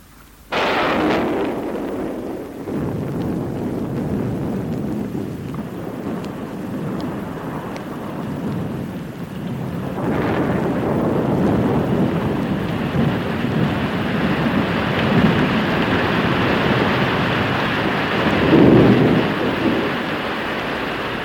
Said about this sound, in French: Parce que moi, j'ai peur de l'orage.